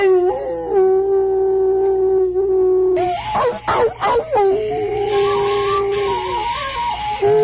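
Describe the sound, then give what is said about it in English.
Hounds howl in a long, steady, mournful tone, then a rough, noisy burst of baying follows before wavering howls return. The sound is loud and continuous, with no talk over it. “Thank God, Holmes, you hear those hounds.”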